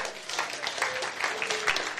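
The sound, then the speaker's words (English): A church audience claps for a group of helpers, many hands beating in a busy, even patter that stays steady from start to finish. “Let's give glue a clap.”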